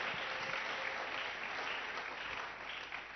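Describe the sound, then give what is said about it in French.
A church audience applauds during a Sunday worship service, a steady, dense wash of clapping that stays fairly faint and even throughout. “Acclamons très fort le Seigneur.”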